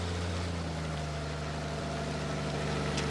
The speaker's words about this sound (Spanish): La camioneta se aleja.